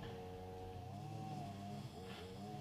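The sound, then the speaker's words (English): An aircraft flies over, giving a faint, steady engine drone with low humming tones that hold through the whole clip. “Mate, it's just flying over. I don't know if it's wrecking our audio. It's possible that it is.”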